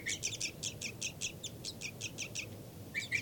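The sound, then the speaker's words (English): A bird gives a rapid series of flight calls, many short, high chirps repeated at an even, quick rhythm with a brief pause near the end, moderately faint over a low background hum. “Flight call series by 5-9.”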